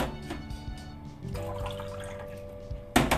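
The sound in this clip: Hot water at about 50 degrees is poured, roughly 200 cc, into a cup holding tea leaves. The pour is a faint, continuous trickle with a soft liquid texture.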